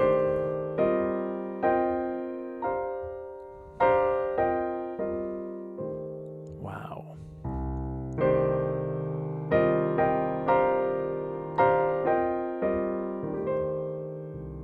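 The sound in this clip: An arpeggio of chord shapes built in fourths is played with both hands, D and G in the left and C, F and B flat in the right. Many struck notes follow in a steady rhythm, each ringing and decaying.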